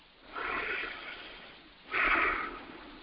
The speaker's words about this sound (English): Let's just take a deep breath with me and let's breathe God in.